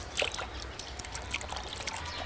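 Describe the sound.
Liquid trickling and splashing as an animal's sore, painful foot is cleaned. Soft, irregular wet bursts come and go over a steady low hum.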